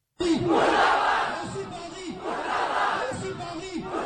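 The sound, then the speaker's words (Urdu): Protesters chant slogans outside Quetta Press Club at a demonstration backing Saudi Arabia and opposing Houthi rebels, a loud crowd of voices shouting in rhythmic, repeated bursts. “مظاہرین Quetta press club کے باہر اکٹھے ہوئے اور سعودی عرب کی حمایت اور حوثی باغیوں کے خلاف نعرہ بازی کی.”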